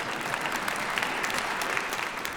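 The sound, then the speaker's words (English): A church audience at Moody Church claps in dense, steady applause. Many overlapping hand claps form an even wash of sound that holds at a constant level throughout. “But you can go ahead and clap.”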